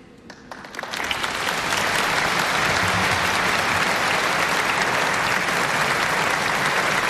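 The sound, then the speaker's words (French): Applause breaks out as an archbishop embraces the pope at the close of a prayer service, starting thin and swelling within a second into dense, sustained clapping that holds steady to the end. “Monseigneur Ballot, archevêque, évêque de Metz, qui maintenant va donner l'accolade au pape Léon XIV sous les applaudissements”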